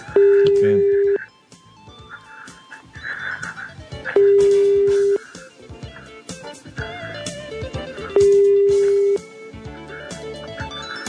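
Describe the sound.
Ringback tone of an unanswered telephone call: three long, steady mid-pitched tones of about a second each, evenly spaced several seconds apart, with people talking in the gaps between rings.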